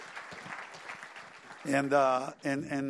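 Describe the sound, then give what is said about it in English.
A church audience briefly applauds to welcome visitors from other churches. The soft patter of clapping is followed by a voice talking. “Let's all welcome all these guys. Give them a very big hand.”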